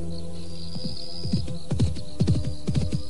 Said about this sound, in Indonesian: Memacu kuda di jalan desa seperti ini secepat itu.